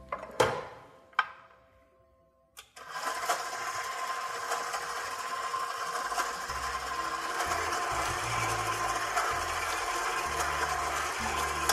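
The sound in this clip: An electric mixer kneads dough in a bowl on its lowest stir speed: two sharp knocks ring out and fade into near silence, then the motor switches on and runs as a steady, even whirring hum with a low rumble until the end, with no voices.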